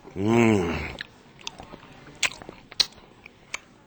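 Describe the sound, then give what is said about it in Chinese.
Soft chewing of toro (fatty tuna) sushi follows a brief voiced hum, with faint, moist, irregular clicks and crunches. “呢个拖螺咧，你咬落咧冇渣嘅。咁同埋又夠肥喎”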